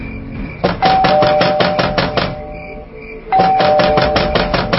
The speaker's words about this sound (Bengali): কে কে আপনারা এভাবে কেন বেল বাজাচ্ছেন?